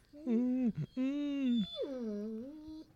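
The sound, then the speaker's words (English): A puppy whimpers and howls in three drawn-out, high tonal cries with wavering pitch, separated by short gaps, fairly loud and alone. “That is a guest appearance by Minnie, the official puppy of the Long Con.”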